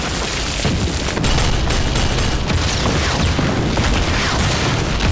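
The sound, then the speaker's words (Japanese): Artillery shelling a mountain summit: a heavy, continuous barrage of overlapping booms and blasts that stays loud and dense throughout, with no pause between the impacts. “山頂が平らになるまで撃て。”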